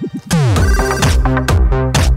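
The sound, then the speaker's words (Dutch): A custom musical telephone ringtone: a loud, catchy electronic jingle with a steady beat, bright tonal notes and sliding pitch swoops, playing alone. “Zet die telefoon nou een keer uit.”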